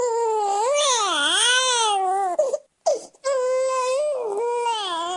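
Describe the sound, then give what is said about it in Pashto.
A two-day-old newborn cries outside a private hospital in Douala, Cameroon: loud, sustained wailing with a wavering, rising and falling pitch, breaking off briefly midway before resuming just as strongly. “دو ورځانه ماشوم ژاړي”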